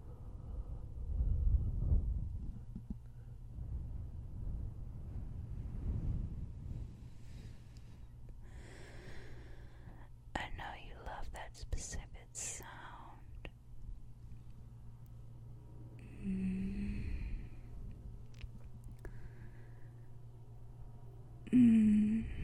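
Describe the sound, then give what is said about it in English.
Close, intimate ASMR breath blowing into the ears: quiet gusts of airy, low rumbling breath come in a few waves, with faint soft mouth and rustling sounds between them and no clear talk. “Like the way mommy's hot breath tickles your cute little ears. Want me to continue blowing on them?”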